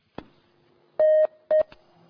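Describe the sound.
Telephone dialing tones on a call-in line as a caller connects: two steady electronic beeps, the first longer than the second, framed by short sharp clicks before and after.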